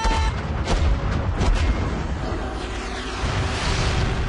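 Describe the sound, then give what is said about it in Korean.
Cannons fire at an enemy as a few heavy booms break through a continuous, dense roar of blast noise that lasts the whole time. “적군 출현! 적군 출현! 발사 준비! 발사!”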